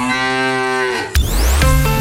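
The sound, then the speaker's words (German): A recorded cow moo plays from a Müllermilch milk bottle as one long, loud, steady low moo lasting about a second, followed abruptly by a burst of other noisy sound with rising tones. “Finde die letzte Muhende Müllermilchflasche und gewinne 50.000 €.”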